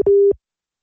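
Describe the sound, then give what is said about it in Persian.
Telephone busy tone after a dropped call: one short, steady electronic beep at a fixed pitch, followed by silence. “متاسفانه تماس ما با خانم سادات ظاهراً قطع شد.”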